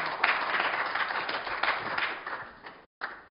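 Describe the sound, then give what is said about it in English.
A church audience applauds during a morning service with dense, steady hand clapping that carries on, then cuts off abruptly near the end. “would you please applaud for yourself this morning for the service that you bring the church?”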